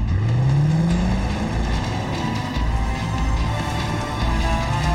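A car drives with its engine revving, pitch climbing steeply at the start and then holding a loud, steady roar; this is a driving scene in the series Taken featuring a cameo by Team Penske's Ryan Blaney.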